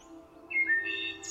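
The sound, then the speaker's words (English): Nightingale song: a few faint, short chirps and thin whistled notes over a quiet background, with no talking. “But the nightingale sat and sang to him.”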